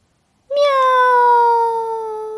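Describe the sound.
A spotted cat stuck up in a tree lets out one long, drawn-out meow. The clear tonal cry begins abruptly and holds steady, easing slightly lower in pitch as it continues.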